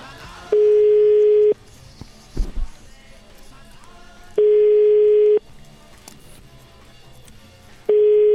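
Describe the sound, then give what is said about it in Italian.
An Italian telephone ringback tone plays while a call rings through to a restaurant in Rome. It is a steady single-pitch beep of about one second, heard three times with long pauses between, over a low background murmur. “Richiamiamo questo ristoratore del ristorante Archimede a Roma.”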